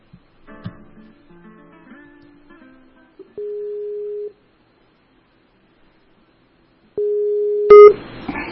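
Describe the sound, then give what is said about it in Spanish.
Outgoing Skype call ringing: two steady electronic tones separated by a long silence, preceded by soft mixed sounds and ending in a brief loud burst as the call connects. “Marina Salvatico, a quien ya estoy llamando vía Skype”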